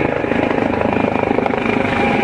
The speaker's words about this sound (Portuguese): Helicópteros da Força Aérea são mobilizados